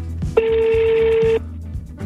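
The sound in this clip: A telephone call ringing unanswered: a single steady electronic ring tone lasting about a second, clear and moderately loud, set against a low background hum with brief clicks before and after.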